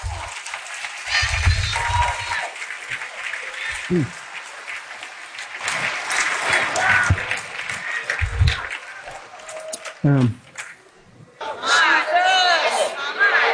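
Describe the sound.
A church audience cheers, claps and shouts in answer to a preacher's call to make noise. Loud applause and bursts of voices rise and fall, with a brief dip near the end before the noise swells again.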